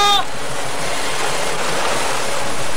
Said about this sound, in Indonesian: Debur ombak ini serta angin yang berlawanan dengan arah yang kutuju menghalangi suara.